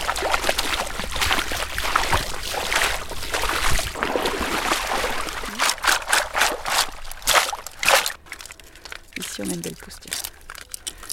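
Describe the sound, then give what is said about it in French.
Water splashes and trickles as an adult cupped oyster with a pale, slightly green-tinged shell is rinsed. The sound is a steady stream of wet, crinkly splashing, with a few sharper bursts toward the end. “Je la rince un petit peu.”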